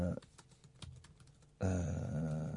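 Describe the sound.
Fingers type on a computer keyboard, entering a search in a quick patter of clicks, and then a louder voice takes over.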